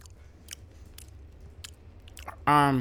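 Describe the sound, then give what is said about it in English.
Chewing on a piece of a king size Hershey's Cookies and Cream candy bar: a few crisp, crunchy bites spaced through a quiet stretch, followed by a burst of a voice at the end. “I'm gonna do ASMR. Oh yeah, with the candy, please. Of that one. Oh my God, I'm about to have a piece. of a king size.”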